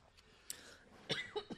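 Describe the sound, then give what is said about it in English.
Faint coughing and throat clearing from someone choking, partly from allergies and partly from laughing hard, heard as a few short, raspy bursts. “I'm over here choking, and it's part of it's allergies, but part of it's because you get me laughing so goddamn hard.”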